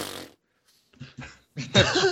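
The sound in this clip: A voice imitates a spit take with the mouth, and it comes out sounding like a fart: a few short sputtering bursts and then a louder, longer, wet blast at the end.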